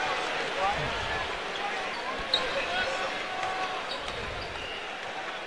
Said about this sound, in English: And it's double bonus for both teams, so he rims out on the free throw.